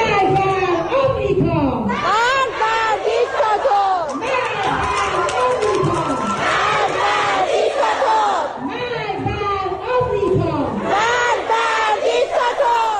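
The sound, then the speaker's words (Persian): A crowd of schoolgirls chants protest slogans together at school, with loud, rhythmic shouted phrases repeating without a break. Overlapping voices and raised cries keep the sound dense and continuous throughout. “بله این صدای دهه 80 های ماست که بلدن شعارهای خودشونو بدن.”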